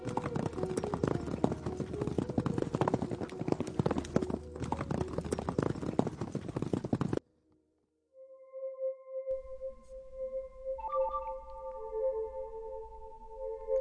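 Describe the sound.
Horse hooves clip-clop in a brisk, even rhythm as a rider sets off, running loud and steady for about seven seconds before stopping abruptly; after a brief silence, sustained low tones follow.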